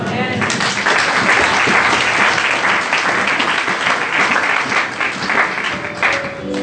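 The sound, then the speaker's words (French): Congregation applauding in a church after prayers, a loud, dense and steady wash of clapping that lasts about six and a half seconds. “Acclamons encore le Seigneur.”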